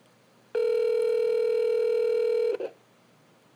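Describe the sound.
A telephone line tone sounds while calling a number: one steady, loud electronic hum held for about two seconds, then cut off by a brief click, with no talk over it.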